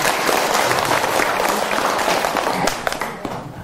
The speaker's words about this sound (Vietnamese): Wow, tuyệt vời, vỗ tay nào.